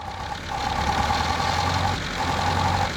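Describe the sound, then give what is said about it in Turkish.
A four-cylinder car engine idles just after its air filter was refitted; two cylinders had been firing only intermittently. The low, steady hum drops briefly in level midway, then settles back to an even run. “İşte çalıştı. Sesi de güzel. 4 silindirden ikisi yalnızca ara sıra çalışıyor. Sanırım artık 4'ü de çalışıyor.”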